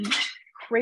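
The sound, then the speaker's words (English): Dishes and cutlery clink and clatter as they are put away, a brief bright rattle of crockery and metal between snippets of talk. “what are you doing over there? Putting away dishes?”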